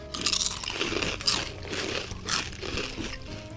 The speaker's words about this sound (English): Okay, our last chip is everything bagel with cream cheese.